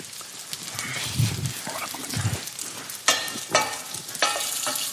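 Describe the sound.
Bite-sized broccoli and bell pepper pieces fry in a pan alongside tofu, giving a continuous crackling sizzle with a few louder clatters and scrapes from stirring.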